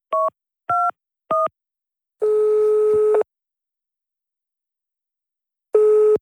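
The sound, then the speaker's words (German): A telephone is dialed, with three short keypad beeps, then a longer ringing tone of about a second, a stretch of silence, and the next ring starting. “Ich muss sofort den Bürgermeister anrufen.”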